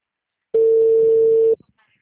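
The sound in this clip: A single steady telephone tone for an unanswered call holds at one pitch for about a second, then cuts off into a few faint clicks and silence.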